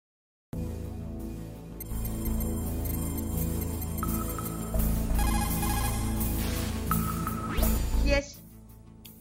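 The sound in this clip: An outgoing phone call rings over a codec link, with thin, steady ringback tones sounding in separate bursts over a constant low hum.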